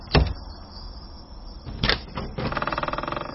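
A house's front door is eased open a crack by someone just woken. A sharp knock-like clunk comes first, then a second hit, then a quick run of rattling clicks.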